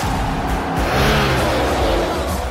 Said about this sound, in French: La course du Charlotte Motor Speedway.